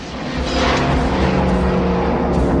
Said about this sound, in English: Having smashed into the lone car's taillights, the lead pack car accelerates again and smacks aggressively and provocatively into its back.